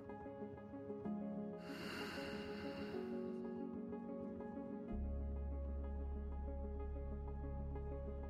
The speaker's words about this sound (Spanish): Inhala. Y exhala.